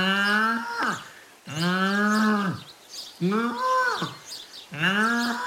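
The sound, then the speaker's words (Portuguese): A calf moos four times, each call a drawn-out, strongly harmonic bellow about a second long that drops in pitch at its end, with short gaps between calls. “feita pelo nosso animal adivinho do Mundial, o bezerro que colheu o Paulo Núncio.”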